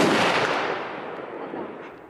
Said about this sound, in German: Die Hand schließt sich fest um den Griff der Pistole. Dann drücke ich ab.